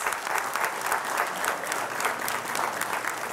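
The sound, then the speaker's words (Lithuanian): Audience applause welcomes a politician as the evening's guest: dense, sustained clapping from a crowd continues at an even, loud level throughout, with no talk over it. “Pasitikime plojimais.”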